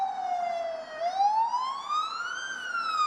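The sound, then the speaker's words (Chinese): A fire engine siren sounds at a fire among village homes. A single loud wailing tone dips briefly, then climbs slowly and steadily in pitch, with no talk over it. “我们可以听到现在现场有消防车正在马上的过来，其实在刚刚过去的一小时是有消防车不断地驶来的”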